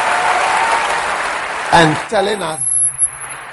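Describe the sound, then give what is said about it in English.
Applause from an audience at a church service: a dense, steady wash of clapping that fades as a voice begins talking over the end. “So we want to clap for Jesus this morning for answering this question for us”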